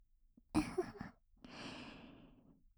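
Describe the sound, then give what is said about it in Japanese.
Warm breath blown softly into the ear: two gentle, airy exhalations, a short one and then a longer drawn-out blow, quiet against silence. “あったかい私の吐息で綺麗になったばかりの耳の奥までふうふうして”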